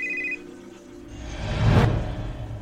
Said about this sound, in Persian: یه دفعه موبایلم زنگ خورد،